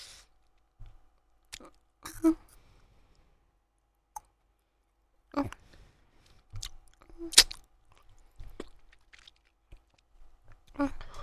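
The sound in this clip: Wet mouth clicks and soft chewing sounds of someone eating come in many scattered, irregular bursts over an otherwise quiet background, mostly faint with a few sharper smacks.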